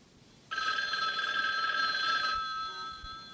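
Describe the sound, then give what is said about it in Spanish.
A telephone rings in one sustained burst of bright, steady high-pitched tone that starts abruptly, holds for almost two seconds, then cuts off into a quiet tail with no voices. “Conteste el teléfono.”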